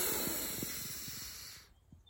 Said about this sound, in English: So we're gonna breathe in through our nose and out through our mouth, all right? So you ready? So into your nose,